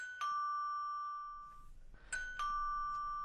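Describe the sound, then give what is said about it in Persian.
A doorbell rings at the gate of a house. Two long, bright chimes ring out and slowly fade, with a brief tinkling tone between them and no voices. “زنگ میزنن دروازه را که اجازه دارم واس کنم.”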